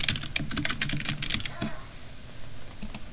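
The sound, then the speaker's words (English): Fast typing on a computer keyboard as a search term is entered, a dense run of many light, crisp key clicks with short pauses in between. “Type in Argenicast with a space in the middle.”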